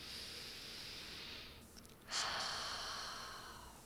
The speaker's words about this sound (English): let's take a breath here, taking a nice big breath, filling all the way into the belly.